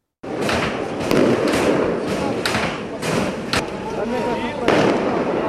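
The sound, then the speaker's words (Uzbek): Explosions in a capital city during violent clashes between protesters and security forces: repeated sharp booms and bangs burst over a continuous rumbling roar. “Poytaxt osmonida tutun, turli joylardan portlashlar quloqqa chalanadi, ko'chalarda vahima hukmron.”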